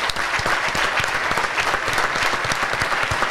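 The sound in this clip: Applause from a crowd, with many hands clapping in a dense, steady stream that holds an even loudness through the whole stretch.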